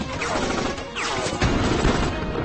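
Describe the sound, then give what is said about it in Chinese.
Gunfire in a desert: a dense, continuous crackle of overlapping shots and bursts, fairly loud and steady throughout, with no voices. “渐渐的，枪声越来越近，身边的人越来越少，”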